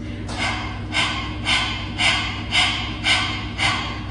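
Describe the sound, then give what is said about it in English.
A person breathes in rhythm, imitating a dog's rapid panting as a breathing exercise. Seven forceful, breathy bursts come at an even, quick pace, each rising and fading, with no talk between them. “we're going to act as if we're panting like a dog. So if we practice that first,”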